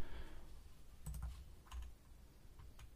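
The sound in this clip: Quiet clicks of a computer keyboard as a search query is typed, coming in a few short, uneven bursts of keystrokes with brief gaps between them.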